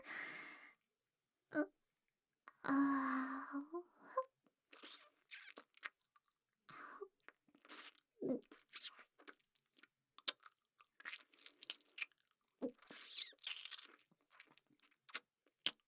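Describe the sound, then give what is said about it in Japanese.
Chewing of a soft food, with many irregular, moist bites and mouth sounds at varying loudness and occasional breaths, heard alone with no talking. “なんか絶妙に柔らか。噛めば噛むほど味が染み出てくる。”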